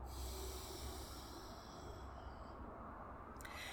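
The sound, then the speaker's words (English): Faint, steady breath hiss from sitali breathing, drawn in through a rolled tongue and let out through the nose. One continuous airy stream holds even loudness throughout, with no voices. “So inhale through the rolled tongue, keeping the tongue out, exhaling through the nose.”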